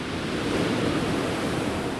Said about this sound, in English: walks to the end of a stone beach with waves roaring in off the English